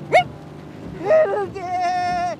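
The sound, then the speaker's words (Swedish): A sheep bleats with a long, wavering, quavering tone as it is being caught. It follows a short high yelp and a brief voiced sound. “Sluta bräka och skälla båda två.”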